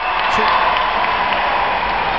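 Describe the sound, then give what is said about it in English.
A round of applause rises as a steady, even wash of many hands clapping, holding at a constant level throughout. “Round of applause.”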